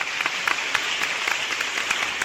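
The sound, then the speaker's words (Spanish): Audience applause, a short burst of steady, dense clapping at even loudness. “Es un personaje que se encarga de producir este hermoso podcast y para quien pedimos muchísimos aplausos.”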